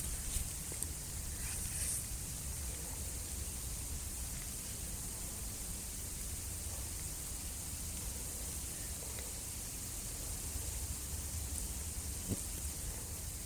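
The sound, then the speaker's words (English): Rustling hiss of billions of flying ants swarming on their flying ant day. A faint, dense, even hiss runs continuously with no distinct individual sounds and no voices. “And this sort of rustling, hissing noise that you're about to hear is billions of ants”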